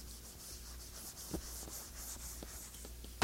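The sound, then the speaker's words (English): Writing points down with a pen or marker, a steady scratchy rubbing with faint repeated strokes over a constant background hiss, no voices. “Okay, there are 4 points that I want to make, and the first one here, let's start, I'm going to write them down”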